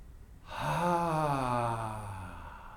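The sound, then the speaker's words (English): A deep, voiced exhale blown out during a guided meditation. It starts after half a second, swells quickly, then slides slowly downward in pitch as it fades over about two seconds, heard alone. “And when you release, release completely. Maybe even blow that last remnant of exhale out.”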